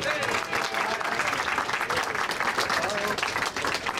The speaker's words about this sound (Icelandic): gefið gott klapp Dave Jones